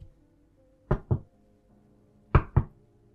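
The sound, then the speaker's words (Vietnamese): Timid knocking on a door comes as two soft double-knocks, four raps in all, with a pause between the pairs; the hits are quiet and brief against near silence. “Có tiếng gõ cửa rụt rè vang lên.”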